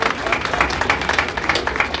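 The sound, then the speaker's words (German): Audience applause at a German local event, welcoming a woman introduced on stage: a short burst of lively clapping with individual claps standing out in an uneven rhythm. “Ein bisschen Beifall für Brigitte Dinger. Hier ist sie, ihr kennt sie doch alle.”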